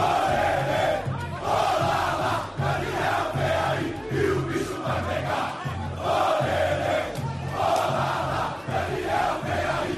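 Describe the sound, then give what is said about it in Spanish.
A crowd of thousands roars and chants at an airport to welcome a newly signed footballer, with flares lit. The massed cheering stays loud and continuous, swelling and dipping in repeated surges. “Tremendo, con miles y miles de personas esperando a la llegada del nuevo lateral del conjunto brasileño, con bengalas incluidas. Suena así el recibimiento.”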